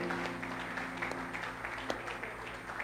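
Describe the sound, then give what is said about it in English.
Hands clapping at a church gathering, many claps forming a dense, steady, fairly faint patter that runs throughout. “Clap your hands for mommy.”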